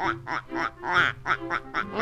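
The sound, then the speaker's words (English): Ducks on a pond quack in a quick run of nasal, raspy calls, about eight bursts spaced almost evenly, moderately loud with no other sounds. “A lot of ducks out on the pond. Ducks sure take to the water like, ducks.”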